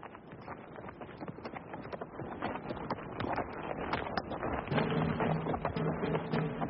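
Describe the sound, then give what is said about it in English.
Horse hooves as a rider goes slowly away: a steady, crunching stream of scuffing hoofbeats over a rough, noisy background, with no talk. “I turned Covenant's head and rode slowly away from the west.”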